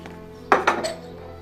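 Drinking glasses clink as they are carried to a sink after a party, three quick bright clinks in close succession over a faint, steady background hum.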